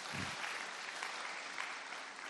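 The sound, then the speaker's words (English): A church audience claps their hands during a sermon, a dense, continuous patter of many hands that stays at a steady level throughout. “Can you clap your hands for Jesus, somebody?”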